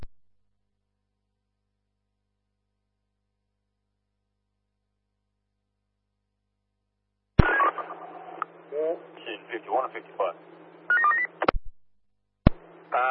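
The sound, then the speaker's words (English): Telephone dialing tones come over an emergency-service radio link as a caller is dialed. After a long silence they start suddenly, as a busy run of beeps and tones with crackly bursts that cut in and out. “Roger, dialing now.”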